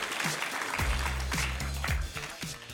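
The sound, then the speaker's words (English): Steady clapping from an audience applauding volunteer chocolate tasters, with voices mixed in. “Give them a hand. Give the woods a hand. We appreciate them.”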